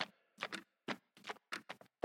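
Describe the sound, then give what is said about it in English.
A clock ticks on its own, giving many faint, crisp ticks in a quick, slightly uneven rhythm, some landing close together in pairs. “Can you stop your clock ticking over there?”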